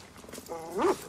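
A dog growls in one short, harmonic snarl that swells briefly and then fades.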